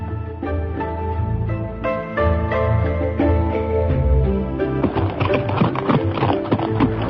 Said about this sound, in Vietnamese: Đoàn Dự cùng với Ngữ Yên cưỡi chung một con ngựa, phóng qua không biết bao nhiêu vườn dâu